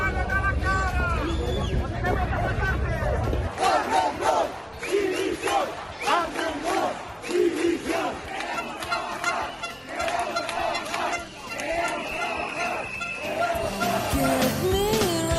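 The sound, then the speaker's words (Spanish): Protest crowd of thousands of hospitality workers marching through the streets of Palma, Mallorca: a dense, loud roar of shouting voices and honking horns that continues throughout. “Miles de hosteleros de Baleares han protestado esta mañana en Palma.”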